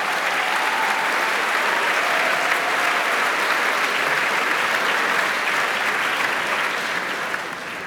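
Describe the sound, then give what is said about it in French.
Sustained applause from a concert hall audience greeting a performer, a dense, steady wash of clapping that holds at an even loudness for the whole stretch and eases slightly at the very end. “sans son bouquet de fleurs et sans resaluer encore une fois le public qui l'acclame.”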